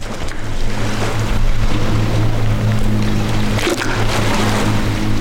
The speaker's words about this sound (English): you're hearing the Notley River rushing up against the dam's rocky edge.